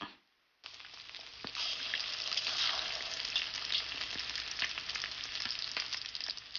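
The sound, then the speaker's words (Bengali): Egg-coated chicken pieces frying in oil in a frying pan, a loud continuous sizzle with scattered sharp crackles that starts abruptly after a brief quiet moment and holds steady. “মুরগির মাংস প্রায় 3-4 minute ধরে fry করে নিন।”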